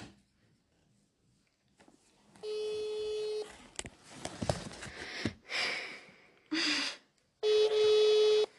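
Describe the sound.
Ringback tone of an unanswered telephone call during a prank call: a few long, steady electronic ring tones separated by pauses, with rustling, a sniff and faint handling noises between them.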